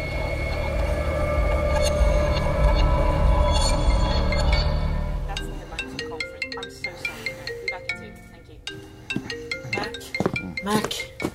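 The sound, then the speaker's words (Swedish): A telephone rings repeatedly, unanswered: a rhythmic ringtone pattern of bright melodic tones repeats after a stretch of loud, low rumbling noise. “Svara, det ringt flera gånger.”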